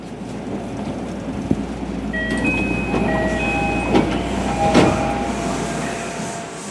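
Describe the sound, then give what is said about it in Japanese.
Ambience from an underground platform at Roppongi station on the Toei Oedo Line on a rainy day: a steady rumbling wash of train noise with a sharp click and a few faint electronic tones. No one speaks. “今ちょうど電車を降りて左側の方に行ってですねこれから六本木ヒルズの方に向かおうとしています”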